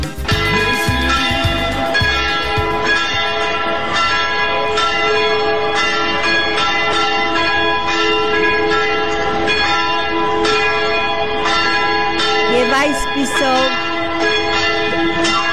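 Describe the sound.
Church bells ringing continuously: dense, overlapping strikes with a bright, sustained metallic ring that stays loud and steady for about fifteen seconds.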